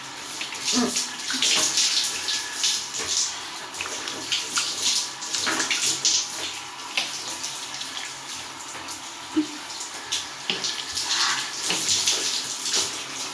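Water runs steadily while someone bathes and rinses, a continuous broad hiss from a tap into a tub with shifting splashes and uneven bursts as the body is rinsed, and no voices.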